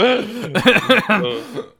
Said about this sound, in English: we're just having trouble with the throat, so we decided to clear it while we started recording as opposed to beforehand for, you know, everyone's sake